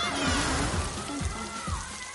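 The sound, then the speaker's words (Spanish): Water gushing from a burst water pipe in the Peanuts animated film: a loud, continuous rushing and splashing wash of noise that stays steady throughout, with a soft low pulsing beneath it. “Se resbala y hace que salte la tubería del agua empujando a todos.”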